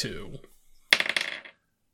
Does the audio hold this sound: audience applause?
no